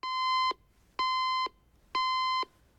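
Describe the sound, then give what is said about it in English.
Alarm clock beeping beside a bed: three bright, evenly spaced electronic beeps, each a steady tone of about half a second, ringing alone between quiet gaps. “The woman reaches out to a bedside cabinet and switches off the alarm.”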